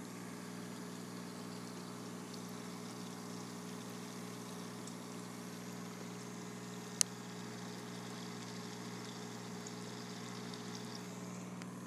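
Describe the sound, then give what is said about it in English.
An ozone generator running, giving a steady low mechanical hum with a constant tonal drone and faint hiss that never changes, broken once by a single sharp click. “But first, 15 seconds of the ozone generator doing its magic.”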